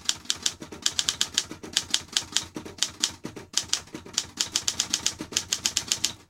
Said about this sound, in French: La machine à écrire. Cet objet, aujourd'hui désuet, mais dont les sons hantent notre mémoire collective.